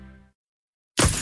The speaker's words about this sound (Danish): en skadet rude revner lidt, når det er koldt